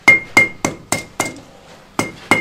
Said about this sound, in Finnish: Tämä tosi nopeasti viirenee, niin tässä ei hirveästi kerkeä tehdä, että pitää olla nopeita, mutta tarkkoja vasaran lyöntejä tässä.